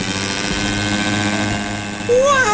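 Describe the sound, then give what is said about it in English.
A steady whirring, propeller-like engine drone with a low hum from homemade rocket shoes driven by an ice cream machine whisk taking off, ending in a louder, high whistling tone that climbs in pitch. “I've got this whisk from an ice cream machine and thought it would make a tremendous propeller for some rocket shoes I've been working on. Let's give them a try.”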